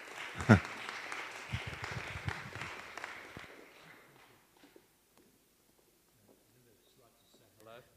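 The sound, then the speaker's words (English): Audience applause welcoming guests at a Christian weekend gathering: a dense, loud burst of clapping for about three seconds that then dies away, with voices heard faintly afterward. “So welcome. Let's give Len and Linda a hand.”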